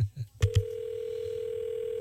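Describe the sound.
A telephone line rings while the caller waits for someone to answer. A few clicks lead into a steady, unbroken electronic tone that holds at even loudness to the end.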